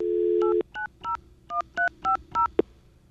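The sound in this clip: Touch-tone telephone dialing: a steady dial tone cuts off, followed by about seven short beeping keypad tones in an uneven rhythm and a final sharp click.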